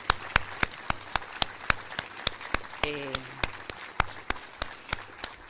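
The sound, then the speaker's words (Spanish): An audience applauds after a live performance of texts by women. The clapping forms a crisp, regular beat of many evenly spaced claps at a steady tempo throughout. “Un aplauso para ellas, por favor.”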